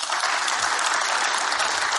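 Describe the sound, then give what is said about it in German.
Audience applause, a full, steady burst of many hands clapping at an even, moderately loud level from start to finish. “den Applaus sollen Sie kriegen.”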